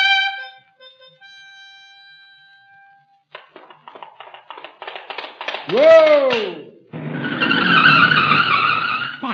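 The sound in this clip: A vehicle brakes hard and skids, giving a loud arching squeal that climbs and then falls, followed by a few seconds of broad, rough noise.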